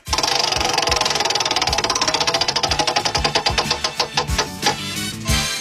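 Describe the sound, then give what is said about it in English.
A prize wheel spins on a game segment, its pointer ratcheting against the pegs: loud clicks start fast and even, then space out steadily as the wheel slows toward a stop. “Go ahead and spin that wheel alphabetically, let's start with the Z.”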